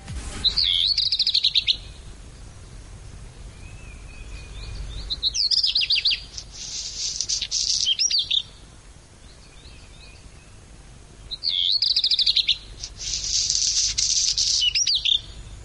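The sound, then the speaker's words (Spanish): Birds chirping and singing in a few separate bursts of high, bright twittering, with quiet stretches in between and no voices. “Yo le voy a decir a Marta Santiago que deje abierta la ventana, para que se oiga el sonido de esos pájaros, de esas aves”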